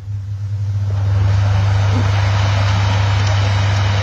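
An air conditioner heat pump runs inside a camping trailer, giving a steady low electric hum under a broad, airy whoosh that rises slightly in the first second and then holds constant throughout.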